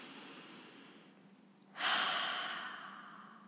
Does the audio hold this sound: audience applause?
no